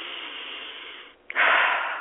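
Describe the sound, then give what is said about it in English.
A deep breath, heard as one strong, airy rush of air that comes after a brief near-silent pause. It starts abruptly and loudly, then eases off slightly, following a softer, steady hiss at the start. “Let me breathe.”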